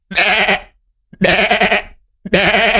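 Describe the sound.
Goat bleats: three loud, wavering, nasal bleats separated by short pauses, the last one cut off at the end.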